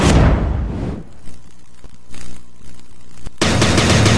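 A rapid-fire jingle built on machine-gun fire opens with a loud, dense burst of shots that dies away. A quieter stretch with a few faint pops follows before a second harsh, loud burst.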